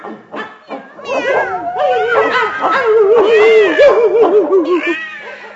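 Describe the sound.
Dogs barking, yipping and whimpering as a crowd of cats and dogs rushes through an open door toward a meal. The cries are loud and busy, with high wavering whines running continuously over the barks.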